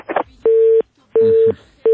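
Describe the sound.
A phone call's disconnect tone: three steady, mid-pitched electronic beeps of equal pitch, evenly spaced and loud, the last one cut short, following a brief noisy burst at the start.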